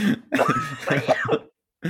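A person coughs and clears their throat after swallowing the wrong way: a run of rough, voiced, spluttering bursts for about a second and a half, a brief silence, then another bout begins.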